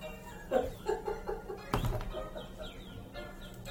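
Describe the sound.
A pet bird calls a few times in quick, chirpy harmonic notes, fairly faint, followed by a sharp knock and softer trailing calls.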